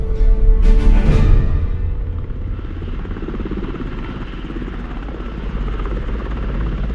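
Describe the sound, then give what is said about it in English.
A Chinook helicopter descends in flight, giving off a heavy, loud rotor thrum with a brief surge of whooshing noise at the start before settling into a steady, droning roar. “After hours in the Chinook, we finally begin our descent.”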